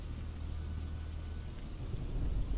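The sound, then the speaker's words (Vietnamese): Heavy rain pours with wind over a river during a thunderstorm, heard from a boat: a dense, steady hiss over a deep continuous rumble that swells slightly near the end, with no voices. “Mưa trút ầm ầm, gió rít ở trên sông như lời ai oán.”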